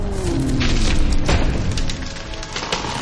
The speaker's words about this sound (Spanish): Ella se enfurece y lanza una bola de fuego que destroza un árbol.